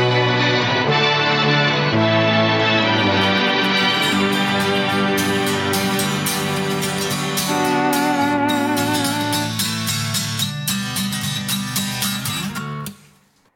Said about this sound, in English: So most of the sounds you hear there are actually like a mellotron sound, which is like a really shitty 60s organ.